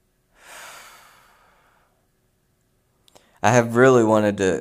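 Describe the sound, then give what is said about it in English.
A deep breath taken to ease stress: one long, airy breath that swells quickly and fades slowly over about a second and a half. A brief pause with faint clicks follows, and then a person starts talking. “Deep breaths.”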